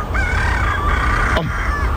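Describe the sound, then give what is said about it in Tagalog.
Roosters crowing at dawn, one long, wavering high crow followed by another starting near the end, over a steady low rumble with a single sharp click between them. “Babatian ko na ang pagpanukturook sa mga manok. Kagahon na ginini.”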